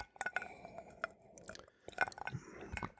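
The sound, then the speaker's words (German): Sipping a glass of neat Dubonnet, an aperitif wine at 14.8% alcohol, with light glass clinks and wet mouth and swallowing noises, a few sharp taps set among soft slurps, and no talking. “Ja, ich nehme noch einen Schluck Dubonnet. Pur. Gerne. Irgendwas muss man ja trinken dazu.”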